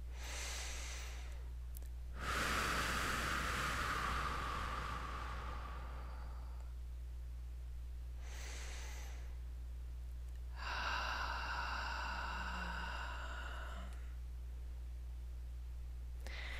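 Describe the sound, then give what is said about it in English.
Deep breathing during a guided relaxation session: a few slow, drawn-out breaths, each a long, soft rush of air, rise and fade over a steady low hum. “let's take a couple nice deep breaths”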